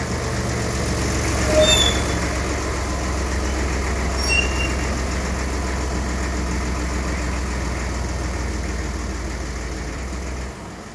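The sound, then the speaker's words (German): A truck rounds a bend and pulls up behind a Peugeot, its engine a steady low rumble that holds throughout and eases slightly toward the end, with a couple of faint, brief high squeaks early on. No voices. “Der Laster fuhr um die Kurve und hielt hinter dem Peugeot.”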